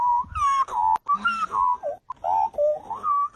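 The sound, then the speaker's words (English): A person whistles an imitation of a magpie call, a warbling, flute-like song of shifting pitch delivered in several short phrases with brief pauses between them. “How good is this magpie call this is not a magpie, this is a human.”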